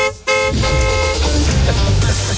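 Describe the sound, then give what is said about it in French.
A car horn gives one loud, sustained honk of about a second, then broad, steady noise continues to the end. “Dès que vous entendrez le klaxon de Tony Vérel”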